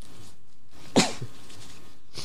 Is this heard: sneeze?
yes